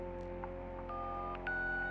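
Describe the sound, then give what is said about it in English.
Two telephone keypad dialing tones sound one after the other, each a steady electronic beep of about half a second, faint over a low constant hum. “Which chapter would you desire? Please dial on the keypad.”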